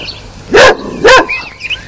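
A black dog barks twice while running in a farmyard, two loud, full-bodied barks about half a second apart standing out above quiet background noise.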